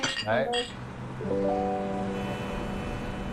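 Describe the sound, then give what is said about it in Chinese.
Glasses clink together in a toast among drinkers. Brief voices come first, then a clear, bright ring holds steadily to the end. “好了，咱们再干一杯，来吧。 来来来来， 再干一杯， 再干一杯， 干杯，”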